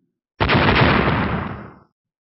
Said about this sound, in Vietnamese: Một tiếng nổ mạnh rung trời